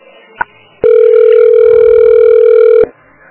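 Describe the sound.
Telephone transfer tone as a call is passed to another line: one steady, loud electronic tone holds for about two seconds and then cuts off sharply. A single brief click sounds just before it.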